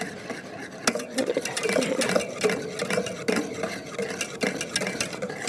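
A hand whisk stirs a thickening, smooth herbal cream mixture, giving a quiet, continuous run of rapid scraping and light clicking strokes in an uneven rhythm.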